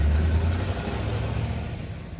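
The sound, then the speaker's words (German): A car engine drives off as a low, muffled rumble with a steady hum that eases slightly over its brief length. “Ich fahre lieber wieder auf die Hauptstraße und nehme den Weg von der Tankstelle, wie immer.”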